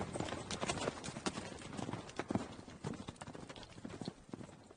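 Many rapid hoofbeats clatter in a continuous, uneven rhythm as a troop of mounted Western Xia warriors turns and gallops in pursuit. The sound is fairly faint.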